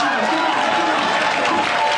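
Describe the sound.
A comedy club audience at the Comedy Store applauds a comedian, a continuous dense wash of clapping and crowd noise at steady loudness throughout.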